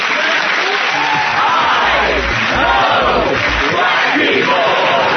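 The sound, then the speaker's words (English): A studio audience applauds to welcome a new game show, with loud, dense clapping mixed with whoops and cheering yells that stay steady and full from start to finish. “Give it up for my new game show.”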